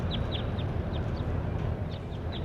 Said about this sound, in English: Here's bird 26 again.